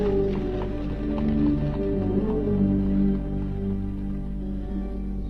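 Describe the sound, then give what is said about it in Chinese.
Horse hooves clop steadily as a horse-drawn carriage is driven off, giving a continuous, moderately loud clip-clop rhythm. “他把 Mason 放到早已准备好的马车上，自己坐到前边亲自赶车”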